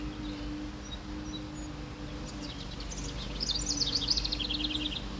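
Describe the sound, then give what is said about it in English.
Birds chirp outside behind a house, with faint high tweets and calls over a steady low hum, growing busier toward the end. “You can hear the birds outside.”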